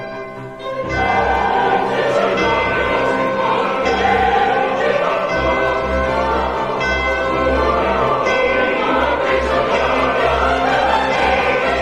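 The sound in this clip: Church bells ring within an opera's mixed four-part chorus closing the first scene of the first act, a dense, sustained blend of voices and orchestra that stays loud and steady throughout.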